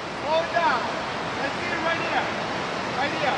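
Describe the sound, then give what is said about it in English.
Steady rushing roar of pumped water from a FlowRider indoor surfing wave machine, a broad, even whoosh that holds throughout with faint voices in the mix. “humid, and there's the roar of the ocean. Well, the Flow Rider. That's where people come to surf inside the pump house.”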